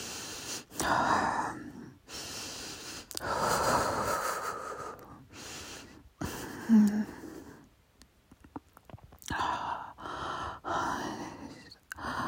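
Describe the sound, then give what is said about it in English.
Slow, deep human breathing: several long, airy inhales and exhales with a gasping, slightly wheezy edge, separated by short pauses, fairly loud, with no talk. “Slow breaths again.”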